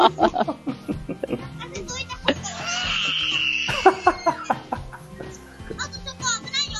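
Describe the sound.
A baby starts crying after dozing off, a high, strained wail rising for a second or so amid adults talking and laughing around it.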